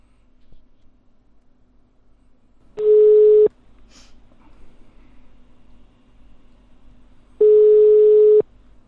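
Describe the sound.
Phone line ringing tone after a number is dialed: two steady, buzzy mid-pitched tones, each under a second long, separated by about four seconds of faint line noise.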